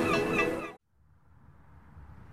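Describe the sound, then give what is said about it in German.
Seagull cries on a North Sea island: a burst of harsh, harmonic squawking calls that overlap for under a second and then stop abruptly. A faint, steady noise follows. “Radio Norderney, frischer Wind und Möwengeschrei.”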